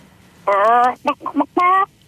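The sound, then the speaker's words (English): A caller imitates a chicken by voice over a phone line: a long, drawn-out squawking cluck, then three short clucks, then another drawn-out cluck, loud and alone. “Did you want to give me your best chicken impression?”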